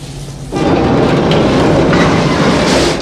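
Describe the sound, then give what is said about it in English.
Train running on rails, heavy rumbling and clatter. After a quieter first half-second the sound jumps abruptly to a loud, steady roar that holds to the end. “A door on the side of the train is opened, revealing the coffin.”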